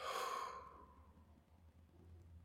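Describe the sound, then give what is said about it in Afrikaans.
A deep breath taken during a guided breathing exercise, in through the nose and out through the mouth: one soft, airy exhale opens loudly and then trails away into quiet. “Ons 'n paar keer lekker diep saam met my asem in by jou neus. Dan weer uit by jou mond.”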